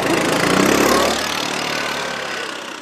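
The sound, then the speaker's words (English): A snow grooming machine on a Nordic ski trail gives off a loud, steady engine roar that eases slightly and holds a constant drone. “But toward the end of the ride, when our trail crosses a Nordic ski trail, a grooming machine approaches.”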